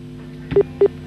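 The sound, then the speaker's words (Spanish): A telephone line tone sounds as a call tries to connect: two short, clipped beeps in quick succession, preceded by a brief click, over a low steady hum. “Está como tratando de buscar la señal, ¿no? Es ese ruido como de que está llamando, pero no.”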